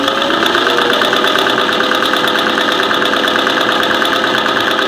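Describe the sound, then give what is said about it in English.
A sewing machine stitching a torn cape on its zigzag setting: a loud, steady mechanical whir with a fast, even pulsing that runs without a break and with no voices. “I seem to have torn my cape. I need to see if I can sew it up here real quick. Hold on. Oh, man. Somebody put it on zigzag.”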